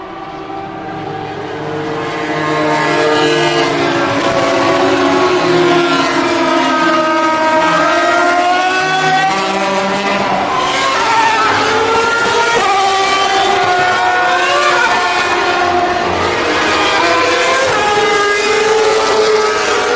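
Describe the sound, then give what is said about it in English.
Racing car engines at a motor race sing out in overlapping, high-pitched whines that swell in loudness early on, their tones sliding and shifting as several cars approach and pass, then stay loud and sustained. “But if you want excitement, you've got to be here at the race. Here they come. You can hear them.”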